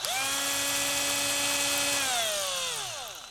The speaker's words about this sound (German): Und ich werde jetzt mit dem Akkubohrer die Augen und den Mund befestigen. Das ist aber auch kein Hexenwerk. Einfach die Kotflügelscheiben mit den Schrauben festschrauben.